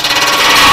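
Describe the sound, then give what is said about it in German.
An under-table circular saw cutting freshly sawn boards gives a steady, loud whirring hiss with a faint whine running through it, heard alone for under a second. “Dann kommen die frisch abgesägten Bretter zur Untertischkreissäge und dort geht es dann weiter. Das hört sich so an.”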